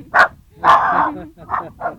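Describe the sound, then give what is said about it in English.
Dogs barking on a farm: a few sharp, mid-pitched barks in short bursts, the second one drawn out longer than the rest. “Looks like you raise a lot of dogs out here. Well. They're your constant companions.”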